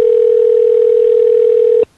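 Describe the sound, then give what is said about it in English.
A steady telephone dial tone heard while placing a call, holding one even pitch and then cutting off abruptly near the end. “All right, let's give another call here.”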